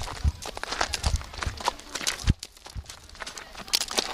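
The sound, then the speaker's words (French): A small pony's hooves clip-clop during a pony ride at an amusement park in the Marne, making a stream of irregular thuds and crunchy steps at moderate loudness. “mais là on commence par la petite balade à poney alors cet après-midi. Voilà exactement, avec par exemple là on voit le petit poney Babiole.”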